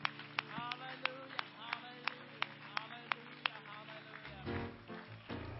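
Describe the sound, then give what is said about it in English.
An audience claps hands during a church service. A steady run of evenly spaced, sharp claps sounds over sustained tones and a voice, and the claps stop before the end. “We believe you're going to do great things, and everybody claps their hands unto the Lord today.”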